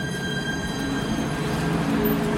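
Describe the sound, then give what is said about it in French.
A tram at a station platform in Brest produces a steady, continuous rumble with faint high whining tones running through it. The sound holds evenly throughout, with no voices. “Nous revenons à Brest, mais cette fois, nous nous arrêtons sur le quai pour prendre le tramway.”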